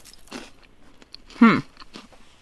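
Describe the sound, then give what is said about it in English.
Crunch of biting into a cream-filled wafer cookie, one sharp, loud crackling bite following a softer earlier crunch, with faint chewing noise around it. “wafer things with some cream in it. Okay? And forgive me for crunching.”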